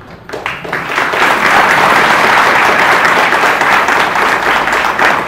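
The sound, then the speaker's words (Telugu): Loud, joyful applause from a crowd of people, with many hands clapping densely together. It starts with a brief lead-in, then swells into a sustained, even roar that holds for about five seconds. “అక్కడ ఉన్న వాళ్ళందరూ ఆనందం తెలియగా చప్పట్లు గట్టిగా కొట్టారు.”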